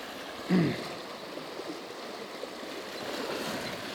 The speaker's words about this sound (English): I got about 25 feet to go, and it's the heaviest of the current. It is ripping through here.